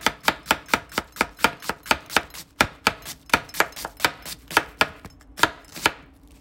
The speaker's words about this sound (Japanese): もう玉ねぎをね切る時間になって。カレー作るんだ今日も。